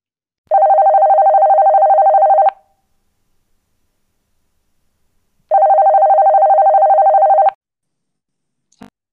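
Two long, buzzing telephone ring tones sound while an outgoing call is placed. Each lasts about two seconds and they are separated by a silent pause, with a faint click at the very end.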